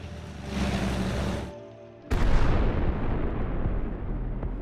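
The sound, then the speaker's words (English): Bombs dropped on a building explode at night: a loud, steady roar drops briefly, then a sudden heavy blast breaks in and trails off into a long, rumbling decay. “night footage of bombs being dropped on a building”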